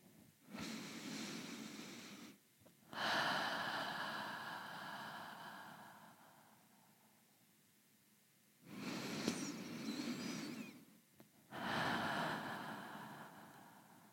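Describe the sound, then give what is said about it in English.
Slow deep breaths taken during a calming breathing exercise: two long cycles of soft, airy inhaling and exhaling, each swelling and fading gradually, faint and without talk. “We'll take two more deep breaths.”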